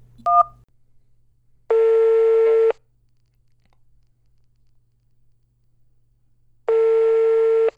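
A single short telephone keypad tone for the digit 1, followed by two longer, steady buzzing tones of equal length that start about five seconds apart, with quiet between them.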